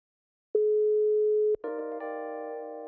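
Telephone busy tone after hanging up: a single steady electronic beep lasting about a second, followed by a sustained, richer multi-tone electronic sound that continues to the end, with no talking.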